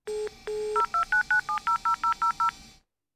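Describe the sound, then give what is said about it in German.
Keypad tones from a mobile phone as an emergency number is dialed to call the police: two longer beeps, then a quick, evenly spaced run of short tones at shifting pitches before it stops. “hat schon sein Handy in der Hand und wählt die 110”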